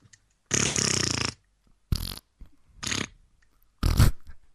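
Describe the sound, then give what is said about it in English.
Farting noises come in four broad, rasping blasts with no talk: a long first one, then three shorter ones spaced about a second apart. “And then me and you just farting.”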